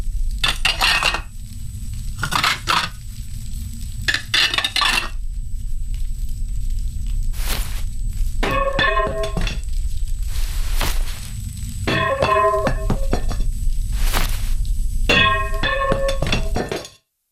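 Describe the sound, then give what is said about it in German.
Plates and dishes clatter in repeated bursts of clinks and knocks, some short and some longer runs, over a steady low hum. “Schade, dass die Teller hier nicht zerbrechlich sind.”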